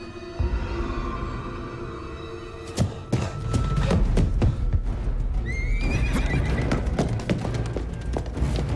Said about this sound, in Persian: با اسب رفت، فرار کرد.